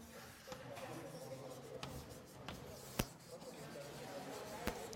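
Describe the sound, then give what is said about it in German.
Writing on a board during a mathematics lecture on linearising transformations and exponential functions: faint, continuous scratchy strokes with a few sharp taps. “Ich schreibe noch mal ganz kurz an, was letztes Mal zum Schluss dran war.”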